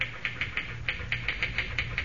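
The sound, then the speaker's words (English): Someone types fast on a typewriter: many rapid, evenly spaced key clacks form a steady mechanical patter. “Boy, you sure can pound that machine. Think I'll ever be able to type like that?”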